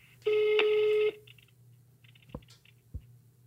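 A telephone ringback tone sounds on an outgoing call to Russia: one long, steady tone at a single pitch, then a faint line hiss and two soft clicks.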